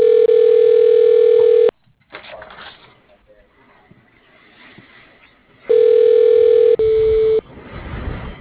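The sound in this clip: Telephone line tones while a call is transferred to voicemail: a loud, steady tone that cuts off into a stretch of faint line noise, then another steady tone followed directly by a shorter second tone.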